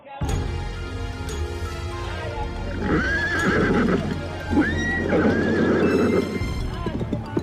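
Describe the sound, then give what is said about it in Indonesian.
A horse pulling a passenger carriage neighs loudly, with long, high whinnies rising out of a steady background of clip-clopping hooves and rolling noise. “Kuda meringkik keras, kemudian berlari lebih kencang.”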